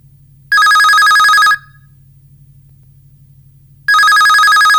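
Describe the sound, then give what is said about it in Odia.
An incoming call rings in on a radio call-in show: two loud bursts of bright electronic trilling, separated by a pause, over a low steady hum. “ଆସନ୍ତୁ ନେଇଯିବା କାର୍ଯ୍ୟକ୍ରମର ପ୍ରଥମ କଲ।”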